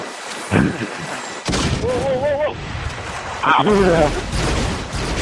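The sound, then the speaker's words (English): Grenade launcher fire in a video game, a few sharp, heavy booms spread across the stretch, with people talking over and between the blasts. “Just give a demonstration of what a regular shot off of a grenade launcher looks like.”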